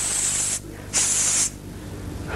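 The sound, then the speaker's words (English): A human voice imitates a hissing sound: two long, steady hisses separated by a short pause, with another just beginning as it ends. “Who hisses? Snake. Snakes. God hisses.”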